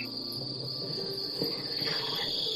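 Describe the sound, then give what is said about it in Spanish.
Crickets chirp at night in a steady, high-pitched, unbroken trill that holds evenly throughout, with a faint low rustle beneath and no voices. “Pero ya hay algunos grillos.”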